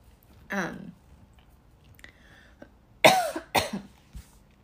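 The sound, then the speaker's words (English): A few harsh coughs after choking on saliva, loud separate bursts spread over several seconds with quiet gaps between them. “Sorry, I just choked on my own fucking slobber.”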